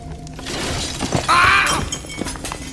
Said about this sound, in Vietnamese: Đột nhiên một trận gió lớn thổi đến, chồng chậu trên cao nghiêng ngả rồi rơi xuống đè lên chân Hai Công.